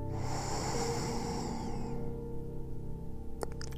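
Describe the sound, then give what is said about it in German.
A slow inhaling breath during a guided breathing exercise: a soft, airy intake lasting about two seconds, heard over a faint low hum and then fading to near quiet. “Und mit der nächsten Einatmung atme Leichtigkeit ein”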